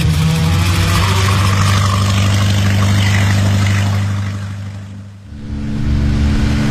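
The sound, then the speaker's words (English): A boat engine runs with a steady, low droning hum that stays constant and loud, briefly dipping near the end before returning at full strength. “Come on! Why is this boat so slow?”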